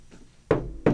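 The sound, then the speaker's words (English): Knocking on wood: a faint tap comes first, then two sharp, solid knocks in quick succession. “Obligatory knock on wood. Knock on wood, yep. Obligatory.”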